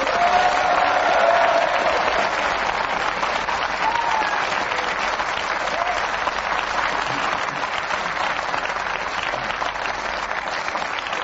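Studio audience applause for a quiz show winner, a loud, dense roar of clapping with some crowd noise, sustained evenly for over ten seconds.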